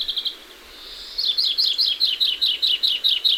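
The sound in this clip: Greenfinch song: a brief high trill opens, then a steady, rhythmic run of many quick, bright, high chirping notes, clear and fairly loud with no other sounds.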